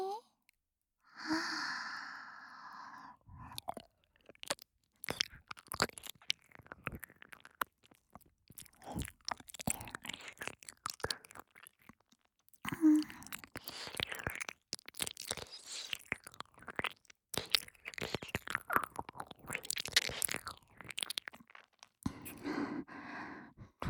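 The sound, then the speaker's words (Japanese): ASMR ear licking and wet mouth sounds, opening with a soft sigh, then many quick smacks, clicks and slurps in an irregular run, fairly faint throughout. “お兄さんのお耳、舐めさせていただきますわね。”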